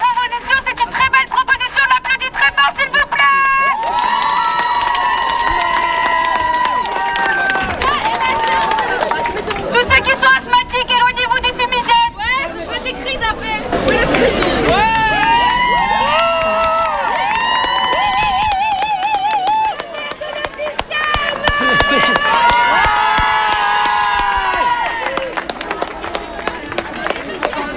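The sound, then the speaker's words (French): Young high school protesters shout, chant and cheer at a demonstration, many overlapping voices rising in loud bursts with brief lulls, lively and excited, with chatter and laughter mixed through the crowd noise. “Voilà la jeunesse, vous l'entendez, qui se manifeste, qui a une pensée très structurée et qui s'amuse aussi parce qu'en luttant, eh bien, il y a de la joie.”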